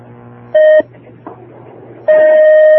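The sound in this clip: Electronic beeps as a phone call connects on a call-in line. Two loud steady tones are heard, a short one and then a longer one, with a faint low hum between them.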